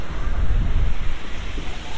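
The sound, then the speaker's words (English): Sea rushing beneath the wooden slats of a pier on a windy day, a continuous low, churning roar with gusty wind buffeting over it and no voices. “Underneath me, through the slats, the wooden slats of the pier, the sea rushes underneath.”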